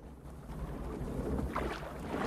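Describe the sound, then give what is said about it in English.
Water rippling and washing around a thin canoe being rowed along a tree-lined river, a continuous soft, breathy swish with gentle swells and light splashy texture, no voices present. “A thin canoe ploughs through the gently rippling water of a river surrounded by trees.”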